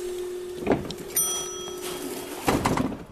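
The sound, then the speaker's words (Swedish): An elevator arriving, with a steady low mechanical hum, a few knocks and clunks, and a brief bright chime-like tone early on, followed by more clattering as it settles. “Ja, nå, nu kommer hissen.”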